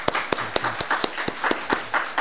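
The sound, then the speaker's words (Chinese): Congregation applause at a church worship service, a short burst of scattered, uneven hand claps overlapping one another at moderate loudness. “我们鼓掌吧，OK？”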